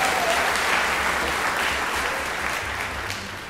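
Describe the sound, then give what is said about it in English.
Audience applause for a performer during an orchestral music demonstration: a dense, steady clatter of many hands clapping, loud and continuous throughout, easing off slightly toward the end. “Give her a hand, yes.”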